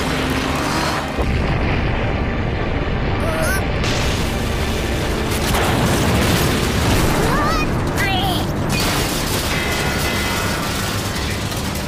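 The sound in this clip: A weapon launch fired after a button is pressed, heard as a dense, roaring rumble with booming bursts that fills the whole clip, with voices speaking over it.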